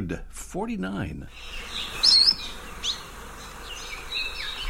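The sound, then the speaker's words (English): Song of the Akikiki, a small, silver-plumaged, endangered Hawaiian bird, heard as a few faint, thin, high chirps and short whistles over a steady, insect-like buzzing hum. “We're listening to some Hawaiian birds. In the foreground is the most endangered bird in the U.S., this little silver-plumaged Akikiki.”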